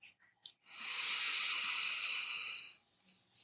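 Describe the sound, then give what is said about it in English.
A deep breath in during a guided breathing exercise with closed eyes: one long, steady, airy inhale lasting about two seconds, preceded by a couple of faint clicks and trailing into quieter breath noise. “So let us take a breath.”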